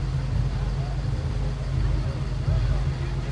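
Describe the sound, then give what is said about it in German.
A car driving away, its engine giving a steady, low rumbling drone that holds fairly even in loudness throughout. “Ist er schon wieder drin? Ja, ich fahr dann wieder.”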